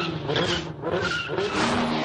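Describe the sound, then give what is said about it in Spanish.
During a chase through narrow streets, a motorcycle and a car come down a castle's access staircase, engines roaring and tires squealing in a loud, continuous rush that dips briefly midway. “La persiguen por calles estrechas. Moto y coche bajan la escalera de acceso a un castillo.”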